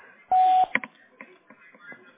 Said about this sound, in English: We are not able to go to the phone right now. Please leave a message at the tone.